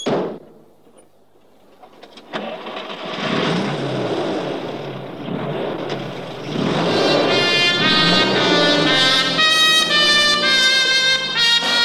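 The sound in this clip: Car engines start and pull away: a low rumble builds into a steady engine drone, joined by a sustained whine that grows louder as the vehicles drive off.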